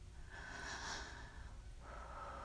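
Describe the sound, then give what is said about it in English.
Faint deep breath, a long, airy inhale followed by a slower exhale, alone and quiet. “Take a deep breath.”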